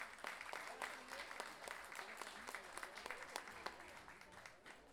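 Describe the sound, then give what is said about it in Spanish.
Applause from an audience at a national festival of the guitarrón, many hands clapping in a dense, steady patter that holds at an even level throughout. “Un aplauso para él.”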